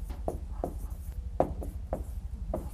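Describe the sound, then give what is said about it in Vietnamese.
Handwriting as someone copies out a translation, with a pen scratching across paper in a few short, crisp strokes at uneven intervals over a faint low hum. “Bây giờ chép bản dịch cái đã rồi tính.”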